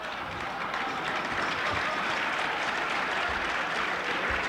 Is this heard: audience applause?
yes